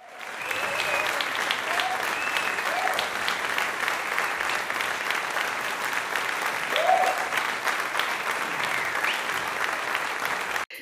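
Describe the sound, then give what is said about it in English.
A crowd gives a long round of applause, dense and steady from start to finish before it cuts off abruptly. “give yourself a round of applause, because you're doing it.”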